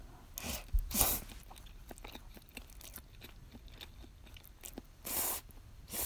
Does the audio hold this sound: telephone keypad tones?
no